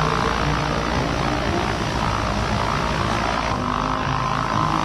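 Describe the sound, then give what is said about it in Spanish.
A Bristol airplane engine roars in flight over the Andes, heard from inside the cold cabin. The drone is loud and continuous, a dense rumble and whir that holds steady throughout. “El ruido del motor hacía sentir su presencia arremolinándose en el aire fresco.”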